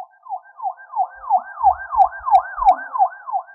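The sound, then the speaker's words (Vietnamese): A police car siren wails in many quick, evenly repeated rising and falling sweeps at a steady, moderately loud level, with a few low thuds underneath and no voices. “Đột nhiên tiếng xe cảnh sát vang lên, mọi người đều xoay đầu nhìn”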